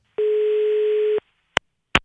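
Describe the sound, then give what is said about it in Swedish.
Telephone ringback tone while placing a call to Stockholm: one steady mid-pitched beep lasting about a second, then silence broken by three sharp clicks. “vi ringde ju till Skansen där man firar 17 maj och kom med lite förslag på ändringar”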